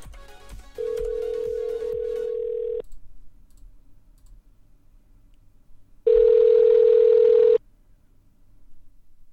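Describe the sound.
Telephone dial tone during a call back: two long, steady mid-pitched tones separated by a quiet gap, with light clicking near the start.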